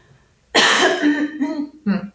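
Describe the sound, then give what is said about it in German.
Someone clearing their throat: a sudden loud rasping burst with a voiced growl that trails on for about a second, then a shorter second clearing follows. “Warte mal, ich muss mich mal ganz kurz räuspern.”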